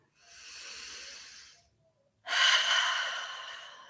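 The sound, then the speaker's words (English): Two long, deep breaths during a guided meditation, each a smooth, airy rush that swells and fades. The second breath is noticeably louder and stronger than the first. No talking. “So I invite you now to close your eyes and take a few deep breaths.”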